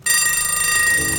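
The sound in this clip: Clocks and alarms ring together at the start of a rock song: a dense, bright metallic jangle of bell-like tones. It starts after a brief quiet instant and then holds steady at full level.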